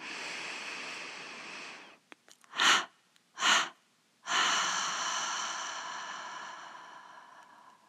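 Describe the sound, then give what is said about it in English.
A gentle inhalation through the nose, then a triple exhalation through the mouth during a guided meditation: a long soft breath in, two short puffs out, and a final long, slowly fading out-breath, with no talking. “And now let's release our observation of the breath with a gentle inhalation through the nose and a triple exhalation through the mouth.”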